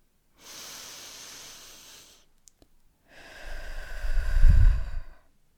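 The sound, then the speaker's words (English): A slow, deep breath drawn in through the nose as a steady airy hiss, then after a brief pause a longer exhale out through the mouth that swells into a louder, rumbling rush of air before fading. “just one intentional deep breath in through the nose and out through the mouth”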